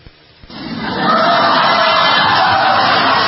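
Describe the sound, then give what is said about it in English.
An audience cheers in agreement, swelling from quiet into a loud roar within about a second. The roar then holds as sustained shouting and whooping. “You hear that? That's the scary part. The people in the audience actually agree with him.”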